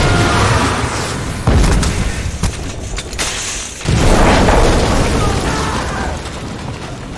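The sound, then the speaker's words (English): Explosions blow up a command headquarters in a combat scene: two heavy, loud booms, each followed by a long, dense rumble that fades slowly. “That was our command headquarters, you idiot! They got us! They blew up HQ!”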